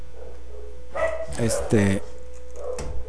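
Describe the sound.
Dogs barking, a few sharp, harmonic barks bunched near the middle followed by one more near the end, moderately loud over a steady low hum.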